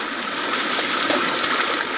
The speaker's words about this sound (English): Why, by 1980, the engineers say over 1 billion gallons of water a day will come into this area. Now that's what I really call water.